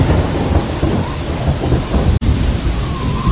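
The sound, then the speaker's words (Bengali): Steady, dense rain falls as a storm dies down, with a deep rumble of thunder rolling underneath it throughout. The hiss stays loud and even, with no voices. “ঝড় থেমে গিয়ে বৃষ্টি নামল,”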